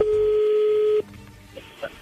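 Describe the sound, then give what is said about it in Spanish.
Telephone tones as a call is placed: a steady, clear tone held for about a second, then cut off, followed by a couple of faint short beeps. “voy a entrar ahí la llamada”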